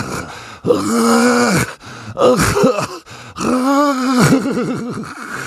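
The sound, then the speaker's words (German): Ghastly groaning from under a bed: several long, loud, drawn-out moans with a wavering, quivering pitch, each separated by brief pauses, with no talking. “Was war das? Woher kam dieses grässliche Stöhnen?”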